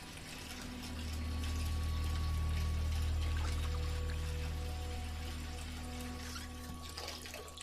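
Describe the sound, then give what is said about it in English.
Bath water running from a tap in a bathroom, a steady rushing stream that swells at the start and then holds at an even, moderate level. “He stops and looks up as he hears the running water.”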